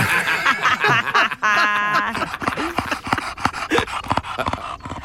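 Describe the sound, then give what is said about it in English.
A bulldog pants rapidly and wetly, with rhythmic snuffling breaths, tongue-lolling smacks and a short groaning whine early on, loud and close throughout. “Who'd like to hear Margaret the bulldog? Here we go.”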